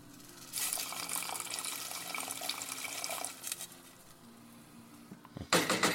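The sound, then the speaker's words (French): Water and then verjuice poured into a cooking pot: a steady splashing pour lasting a few seconds, a quieter pause, then a brief, louder burst of liquid near the end. “Je rajoute un peu d'eau également. Et du verjus.”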